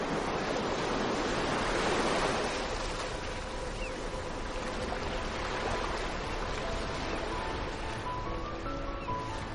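Sea breeze and breaking waves at a beach house, a continuous, even roar of surf mixed with wind noise, steady throughout with no voices.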